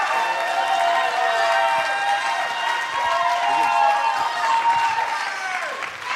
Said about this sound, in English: So what I want you to do is put your hands together